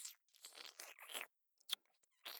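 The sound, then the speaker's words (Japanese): Wet, squelching mouth sounds of tongues entwining come in a few short soft bursts split by brief silences, with one sharp smacking click near the middle, all faint and close with no talking. “くちゅくちゅくちゅくちゅって、エッチな音をさせながら、いっぱい絡み合ってるよ。”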